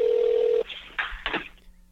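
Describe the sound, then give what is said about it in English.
A telephone dial tone for placing a call: a steady, mid-pitched tone that cuts off, followed by a few brief, faint noisy clicks and bursts. “Let's call out to Los Angeles and get on the phone with our friend, Big Waz.”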